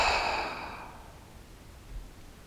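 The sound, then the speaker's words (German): Deep breath out through an open mouth during a meditation exercise: a soft, breathy whoosh that fades away over about a second, followed by near silence. “Atme einmal ganz tief durch die Nase ein und durch den geöffneten Mund aus.”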